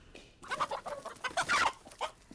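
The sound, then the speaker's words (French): A hen clucking in a quick, uneven run of short, soft clucks that come in small bursts, with no voices. “Je suis sûr qu'il sera content, Fantomas, de récupérer sa poule.”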